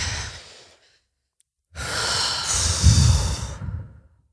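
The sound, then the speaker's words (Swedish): Deep breathing during a calming exercise with hands on the chest: a soft breath fades out, then after a short silence one long, loud, breathy rush swells and trails off over about two and a half seconds. “och så bara tar vi ett djupt andetag.”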